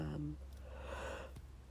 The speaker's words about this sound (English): oh my god, I don't know why I'm yawning so much. I'm so sorry. Maybe I'm not sorry. Maybe I'm gonna stand by that. I yawned.